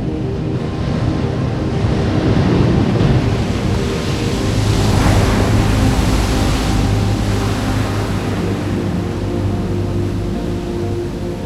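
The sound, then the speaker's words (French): Ocean waves break on a beach in a continuous broad roar of surf that swells and eases slightly, with low sustained tones underneath. “Vous êtes toujours au sommet de cette vague qui commence à déferler sur la plage. Rien ne peut l'arrêter.”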